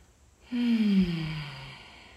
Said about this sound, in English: Oh, and so I breathe. And I welcome you to breathe along with me.